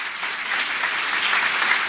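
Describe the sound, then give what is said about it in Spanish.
A church audience claps its hands in praise, a dense, steady applause that holds at an even level for the whole moment, with no voices over it. “Así que, hermanos, dale palmas a ese Dios, hermanos.”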